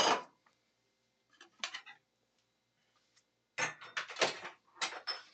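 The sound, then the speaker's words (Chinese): Kitchen utensils clink and clatter as a countertop is tidied while brewing whisky milk tea in a pot. A few scattered knocks and clinks lead to a quiet gap, followed by a busier run of rattling and clanking. “好，我们就可以准备去装你的盘子，还有洗你的所有的器具。那我们先把我们的台面做一个简单的整理。”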